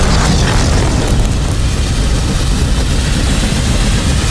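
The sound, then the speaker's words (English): A fireball bursting from a high-tech umbrella weapon during a fight, heard as a loud, dense roaring blast that holds steady for the whole moment without easing off. “He presses a button on the handle, and a fireball explodes from the high-tech weapon.”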